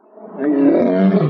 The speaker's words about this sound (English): If you want to hear some lions roaring